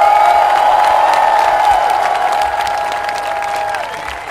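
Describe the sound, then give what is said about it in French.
Crowd ovation at a day of activist mobilization, welcoming a legal support team; loud, dense applause and cheering run throughout over a sustained mid-pitched tone that twice slides downward, the whole slowly easing in level. “Une ovation pour les camarades de la Legal Team.”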